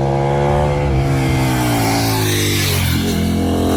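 Supermoto motorcycle engine revving in Germany without its dB killer, a loud, continuous, harmonic engine roar that holds steady, dips briefly in pitch near the end, then climbs again.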